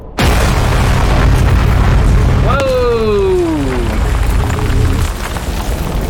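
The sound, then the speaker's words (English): In a video game, a mining laser blast hits the ground in a loud, sustained rumbling roar. A descending whine sweeps across its middle before the roar fades near the end. “So we brute force the mining laser controls and it shoots a big ol' blast into the ground, and that lets us go underneath”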